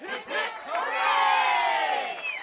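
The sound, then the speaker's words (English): A crowd cheers loudly for saints and returning flyers at a welcome-home celebration, a steady roar of many voices holding at full strength for about two and a half seconds. “Three cheers for St. Klaus and St. Anna, cried out the first young woman, and three more for the eight flyers who brought them home. Everyone cheered.”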